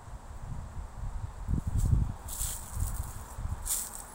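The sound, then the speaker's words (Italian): Footsteps crunch through dry leaves as someone walks, a quiet, irregular run of soft rustling steps with a few louder crunches in the middle. “Camminando sento il suono, uno scricchiolio di foglie secche, è un rumore”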